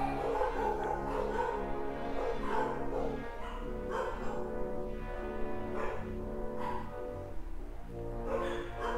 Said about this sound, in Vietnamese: Các bạn đợi tí rồi chó nó sủa xong á.